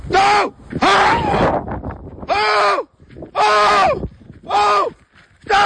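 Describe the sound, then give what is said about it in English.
A terrified cyclist screams and shouts during an encounter with a wolf approaching on a path in a Danish nature reserve: five loud, panicked outbursts of cries and words, strained and high, separated by short gasping pauses. “It's the sound of a recent encounter between a cyclist and a wolf in a nature reserve in Denmark. The cyclist is clearly terrified as the wolf approaches on the path”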